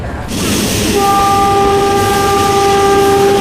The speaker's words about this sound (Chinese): 车马上到站了啊！